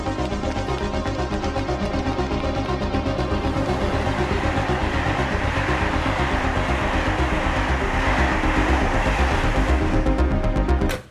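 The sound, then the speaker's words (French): Steady, loud rumble of a train at a station platform on track 14, holding a dense, even roar for the full length with no voices, then cutting off abruptly at the end. “Il y a un train qui va partir là. Quelle voie? Voie 14.”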